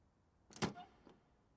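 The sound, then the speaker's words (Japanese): A front door being opened at home: a quick latch rattle, a brief squeak of the door moving, then a soft closing click, all fairly faint. “見えてきた。玄関のドアに手をかける。開けて、そう。”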